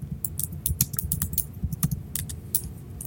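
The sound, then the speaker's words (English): Keys clatter on a computer keyboard in a quick, uneven stream of many sharp clicks over a low background hum, with no talking. “Let me just type this in. Just checking something.”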